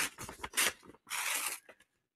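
A numbered paper envelope being opened: two bursts of crisp rustling and tearing paper separated by a short pause, followed by quiet, with no voices.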